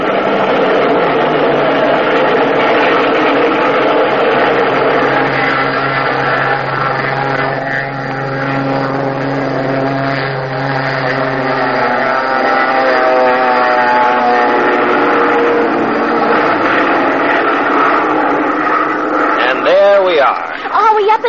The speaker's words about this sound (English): She held her breath and gritted her teeth and kept her eyes shut all during the takeoff. Well, a girl never knows what might happen to her up in an airplane.